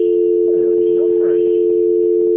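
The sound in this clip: A steady, low telephone tone hums unbroken while a call is transferred to an extension, with a voice faintly present beneath it.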